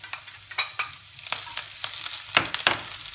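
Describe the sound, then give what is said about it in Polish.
Frying onion, already golden, sizzles steadily in a pan while leek is added, with many irregular scraping and clattering stirring sounds over the constant hiss, moderately quiet and without voices. “Cebula się zrobiła złota, także wrzucę trochę pory”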